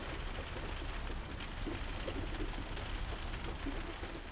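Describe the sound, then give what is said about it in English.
Rain patters steadily on a roof, heard from bed. It is a dense, even, fairly quiet hiss of drops that continues without a break. “the patter of rain on the roof while you're in bed,”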